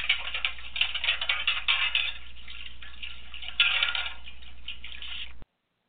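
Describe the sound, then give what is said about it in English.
Metal plates are washed in a metal wash tub on a stove, giving a continuous bright clatter of clinking and scraping metal with watery splashes. The sound stays fairly even, then stops abruptly. “But if you hear that sound, which is the noise made by washing metal plates in a metal wash tub on the stove, then you know it's time for a little housekeeping.”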